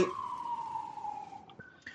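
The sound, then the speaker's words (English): A siren wails as one fairly faint, steady tone whose pitch drifts slowly lower, ending with a few brief, higher tonal blips. “you have sirens here.”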